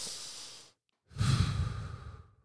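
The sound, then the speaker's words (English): A deep breath is drawn in through the nose as a soft, hissing inhale during a guided breathing exercise. After a short silent pause comes a longer, louder, breathy exhale through the mouth that fades out gradually. “give me that big breath in through the nose, out through the mouth.”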